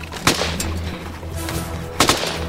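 Gunfire: a few sharp, loud cracks spaced well apart, each standing out over a steady low background rumble.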